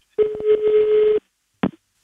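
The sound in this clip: A telephone number is being dialed. A steady tone is cut by several short beeps or clicks, and after a brief silence a single short burst follows.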